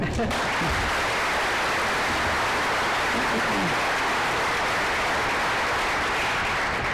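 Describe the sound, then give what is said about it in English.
Sustained applause from an audience welcoming speakers at a Detroit Economic Club event, a dense and even clapping that stays steady throughout. “please give a warm Detroit Economic Club welcome to George, George, and Jackie.”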